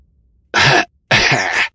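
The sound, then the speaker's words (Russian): A man's very loud cough, two harsh bursts with a short pause between them, heard alone. “Оказавшись у себя в комнате, Астер разразился очень громким кашлем.”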